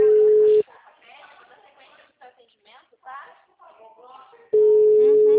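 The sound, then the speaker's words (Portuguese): Ringback tone of an outgoing telephone call, a steady low hum at the start that cuts off while a person talks, then returns and runs to the end. “Tô ligando pra ele já.”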